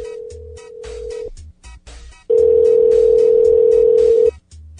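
Ringback tone of an outgoing call to a cell phone: two long, steady, mid-pitched tones separated by a pause, the second louder, with faint rhythmic thumps beneath.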